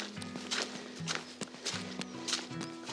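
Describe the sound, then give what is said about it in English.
Footsteps of someone walking outdoors over boggy, wet ground, a steady series of soft thuds over a constant low drone. “I'm walking along the top now.”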